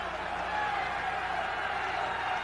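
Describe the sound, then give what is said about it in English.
Faint, steady roar of a stadium crowd cheering on the defense during a snowy third quarter of a Pittsburgh football game at Three Rivers Stadium, an even wash of massed voices with no distinct peaks. “Crowd cheering for the defense to stop them.”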